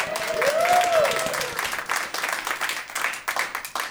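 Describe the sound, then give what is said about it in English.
An audience applauds a guest being welcomed onstage, a continuous wash of clapping from many hands that stays fairly even before gradually thinning toward the end. “please welcome Beatrix Potter.”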